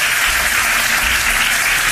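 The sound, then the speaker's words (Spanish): Standing ovation applause at a party leadership meeting: dense, loud clapping from a crowd, sustained and even throughout without voices. “Una ovación que ha durado bastantes minutos”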